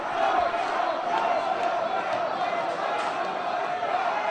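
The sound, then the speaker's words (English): A crowd shouts down a protester, a dense, steady roar of many voices yelling at once, loud throughout with no single voice standing out. “And there's a protester who gets shouted down by the crowd.”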